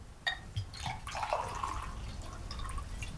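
A water bottle is handled during a kneeling unbewitching ceremony, giving a few faint knocks followed by a brief soft trickle and drip of water.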